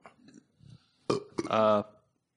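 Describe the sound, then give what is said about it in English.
A burp, loud and low-pitched, erupts suddenly after some quieter talk, with a voice heard before it. “hey, what have I told you about burping?”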